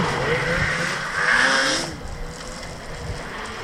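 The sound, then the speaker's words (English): Several snowmobiles roar past in the Arctic, their engines giving a loud, rough drone with whining pitch sweeps that swells around the middle and then eases to a lower rumble. “I'll just let them go by if that's okay. How many snowmobiles was that?”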